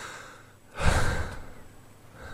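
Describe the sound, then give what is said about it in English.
A single heavy, out-of-breath exhalation, breathy and rasping. It swells abruptly from near silence, lingers for under a second and then fades back to quiet. “Listen to me wheezing.”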